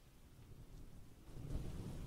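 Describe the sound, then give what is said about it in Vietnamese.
Low rumbling thunder with heavy pouring rain in a village just after the start of spring, faint throughout, the rumble swelling louder about two-thirds of the way through. “Quả thực là cái tiết trời lúc này vừa lập xuân xong thì lấy đâu ra sét to như vậy. Hơn nữa ngoài trời bắt đầu đổ cơn mưa rào rào, cứ như là mưa mùa hạ ấy.”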